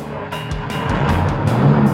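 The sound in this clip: A car engine fails to start, the starter churning without the motor catching, a steady grinding whir with a few irregular surges, fairly loud and alone.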